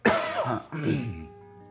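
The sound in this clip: A cough from a tickle in the throat: a sharp, loud burst, then a second rough, voiced throat-clearing rasp that trails off into quiet.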